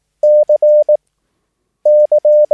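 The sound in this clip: Morse code letter C, the military signal for a yes reply, sounds twice as a clean steady beeping tone in a long-short-long-short pattern, with a pause between the two letters.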